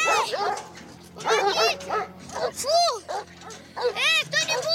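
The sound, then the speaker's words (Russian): Dogs bark as they run out toward a gate: a rapid, irregular series of loud, high barks and yips, with some whimpering mixed in. “выбегают собаки.”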